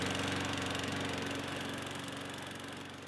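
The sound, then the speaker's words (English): A lawn mower engine runs on a hot afternoon, giving a loud, steady, continuous drone with a faint rapid pulsing. It holds constant throughout and eases slightly in level near the end. “Honey, what are you doing? It's hot outside. Well, I gotta mow the lawn, dear.”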